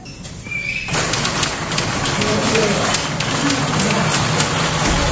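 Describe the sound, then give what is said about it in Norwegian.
A roller shutter door rolls up as a second-hand shop opens, a sustained rattling clatter of rapid clicks that begins abruptly and carries on steadily, with voices alongside. “Så gikk rulleporten opp og bruktbui var åpna.”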